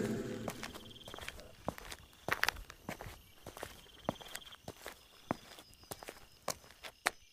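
Footsteps of someone walking down stairs and out of a station, a long sequence of many sharp, distinct steps at an uneven pace, with no voices.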